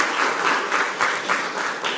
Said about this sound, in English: Let's give him one more time for a round of applause.